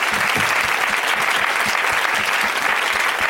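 Studio audience applause for the show's guests: dense, steady clapping from many hands that holds at an even loudness for about three seconds.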